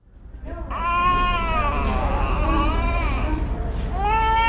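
A malnourished child cries in a small hospital room. The wailing is high-pitched and sustained, with strained, wavering sobs that briefly break off and then start again loudly near the end.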